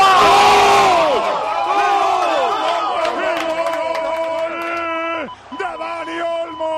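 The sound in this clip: A stadium crowd roars and cheers after Spain scores against France in a football match, a loud, sustained wall of shouting voices that dips briefly near the end before surging again.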